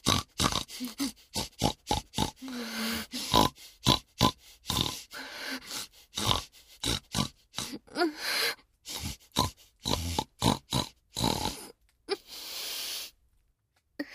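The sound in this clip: Two women imitate pig grunts and snorting oinks, making many short nasal bursts in a quick, irregular rhythm. Some grunts are drawn out longer, and a brief pause falls near the end.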